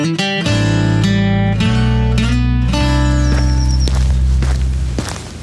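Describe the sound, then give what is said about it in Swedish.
Shoes strike the ground in a few irregular footfalls as someone walks outdoors, the steps partly buried under loud, sustained chordal music. “Det är mina skor som slår mot backen.”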